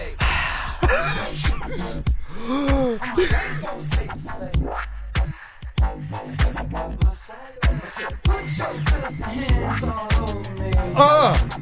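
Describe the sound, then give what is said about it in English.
Heavy breathing inside a played music track with guitar, loud, rhythmic breaths repeating through the whole stretch over dense musical sound. “I wonder who got paid to breathe like that in there.”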